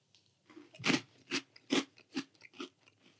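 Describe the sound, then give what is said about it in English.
Someone chews crunchy fruit-flavoured ring cereal, Froot Loops, producing five loud, evenly spaced crisp crunches with softer crackles between them, heard alone with no talk. “I can already tell you they're going to taste exactly the same, because it tastes like every Froot Loop I've ever eaten in my entire life.”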